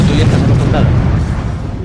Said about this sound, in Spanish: ¡Hola, Michael Bay! ¿Qué tal estás, Michael Bay? ¡Me acabas de hacer explotar cosas!